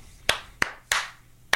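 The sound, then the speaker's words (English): Four slow hand claps over an internet call, each a sharp, separate smack that rings briefly. The gaps are uneven, with the last clap coming after a longer pause. “Wait, yeah, I got to do a slow clap.”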